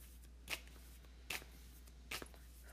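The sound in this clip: A deck of cards is handled while cards are drawn for a chakra reading: three short, crisp riffling bursts, evenly spaced and fairly faint, over a low steady hum.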